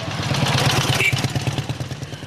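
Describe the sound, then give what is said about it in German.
Engine chugging of a motorcycle with a sidecar riding past on a dusty town street, a steady low rhythmic putter with some light clatter and no voices. “ein Motorrad mit Beiwagen fährt vorbei.”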